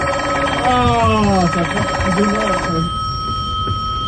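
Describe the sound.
A telephone rings on a direct line into a studio with a steady electronic trill. A voice is briefly heard over it early on, then the ringing continues alone at an even level.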